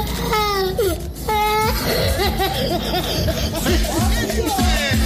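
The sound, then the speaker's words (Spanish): Children cry on cue: two drawn-out, high-pitched wails at the start, then busier, overlapping voices and sobbing that continue to the end. “Cuando yo les digan lloren, lloren, niños, usted arranque esa lloradera de una vez, sin pena. Arranque a llorar.”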